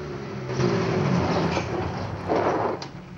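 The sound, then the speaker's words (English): A black car's engine rumbles as it pulls into a house's driveway, swelling twice in loudness before easing off. “He hurries up to a bedroom and stands by the wall, watching out of the window as the black car pulls into his drive.”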